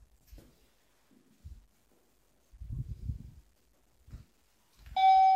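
An electronic chime from a home sensor rings out once at the end, bright and tonal, after a few soft, low thumps and rustles in an otherwise quiet room.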